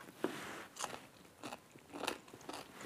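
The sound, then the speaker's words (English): Someone bites into a homemade dill pickle with a spicy chili pepper for a taste test, making several quiet, evenly spaced crisp crunches with soft chewing in between and no talking. “Time for a taste test.”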